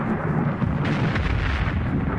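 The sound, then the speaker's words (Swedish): A thunderclap booms over mountains during a storm, echoing off the rock walls as a loud, dense rumble that rolls on without a break. “Då kom där en åskknall. Skrällde bergväggarna.”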